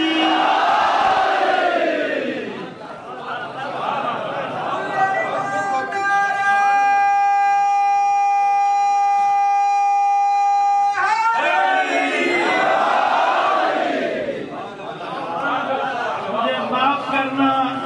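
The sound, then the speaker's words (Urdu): A crowd at a religious address roars its response to the Naara-e-Haidari slogan in two long, loud, sustained shouts, with a single speaker's voice heard before them and again in the gap between. “نشہ ولایت میں مخمور دونوں ہاتھوں کو بلند کر کے اس عظیم عبادت کو حاصل کرنے کے لیے لگا دے نعرہ حیدری.”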